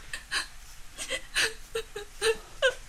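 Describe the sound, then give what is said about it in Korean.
Crying and sobbing: many broken, whimpering voiced sobs come in uneven bursts, some catching like hiccups, moderately loud, with no other sound. “왜 울어? 언니. 엄마 생각이 나서 그러지.”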